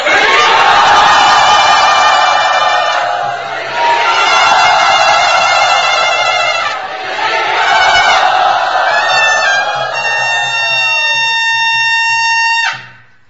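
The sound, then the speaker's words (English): Loud crowd cheering and shouting to welcome a guest at Sri Radha Gopinath Temple, a dense, sustained roar of many voices that holds for about twelve seconds before cutting off sharply. “But please, let us, with tears in our eyes of gratitude to him, loudly welcome him to Sri Radha Gopinath Temple.”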